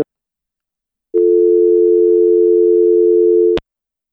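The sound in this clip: A steady telephone line tone after a dropped phone call, a clean mid-pitched hum that sounds alone for about two and a half seconds and ends with a click.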